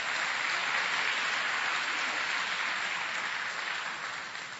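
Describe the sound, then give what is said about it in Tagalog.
A church audience applauds, a dense steady wash of clapping that holds level and then eases slightly toward the end. “Pwede po bang palakpakan natin ang Panginoon?”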